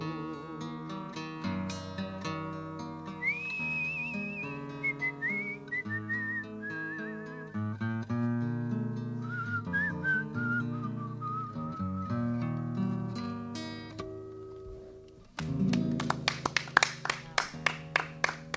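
A person whistles a wavering melodic tune alongside music, the notes sliding and held at a fairly steady level. Near the end, louder sharp percussive hits come in.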